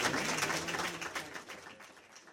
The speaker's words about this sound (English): Lee Terry, Jim Esch, thank you very much. Give them a round of applause.